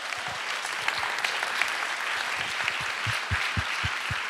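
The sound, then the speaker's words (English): Audience applause warmly welcomes the Teen Challenge ladies: steady, dense clapping holds at an even level throughout, with no voices over it. “So, ladies and gentlemen, would you warmly welcome the Teen Challenge ladies?”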